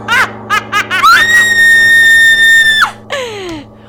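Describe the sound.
A woman screams: a few short rising yelps, then one long sustained high-pitched scream, followed by a brief falling cry.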